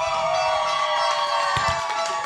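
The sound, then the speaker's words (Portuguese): Ecuador football fans cheering in the Cerqueira neighbourhood of São Paulo during World Cup coverage: a steady crowd din carrying sustained tones, with a few low thumps. “E eu estou aqui com a torcida do Equador no bairro Cerqueira, na capital paulista, em São Paulo. Como é que está a torcida do Equador? Mostra aí, pessoal!”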